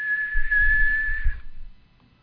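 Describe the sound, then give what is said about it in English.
A person whistles one loud, steady high note that holds for over a second, then cuts off and fades, with a faint low rumble underneath. “I tried and tried and tried as a kid to be able to whistle like that”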